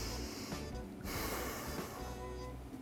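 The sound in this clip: A person breathes out sharply through the nose as part of a breathing exercise for calming anger. The exhale is a faint, airy rush of breath.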